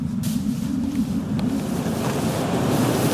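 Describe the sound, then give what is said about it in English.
Wind blows across an icy site in a constant rushing roar with a heavy low rumble. No voices are heard. “Forgot the wind.”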